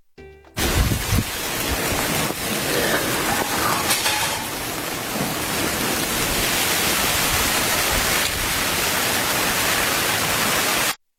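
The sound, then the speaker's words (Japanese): Shower water sprays onto an ordinary single-layer umbrella at a shop front, making a loud, steady, dense hiss like heavy rain that holds evenly for about ten seconds with no voices. “これが普通の雨を、まあ言うてもシャワーかけてる音なんですけれども”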